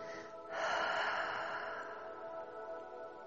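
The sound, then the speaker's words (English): A deep breath drawn in through the nose and let out through the mouth: a soft, airy rush that swells after a brief pause and then holds as a steady, gently fading exhale. “Now breathe in deeply through your nose and let it out through your mouth.”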